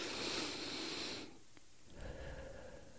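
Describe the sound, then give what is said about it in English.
Deep breathing during a guided exercise: a long, loud, breathy exhale fills the first part, then a pause and softer breath sounds follow, with no talking. “taking a couple of deep breaths with the emphasis on the exhale, even if we were to do that just even right now, it's really fascinating. Can we just real quick? Yeah. Okay, I'm going to just do three breaths.”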